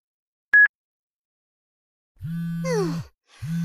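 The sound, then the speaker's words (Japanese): A phone's email notification beep sounds as one short, clear, steady tone, followed after a pause by a voice. “あ、今度はメールだ。”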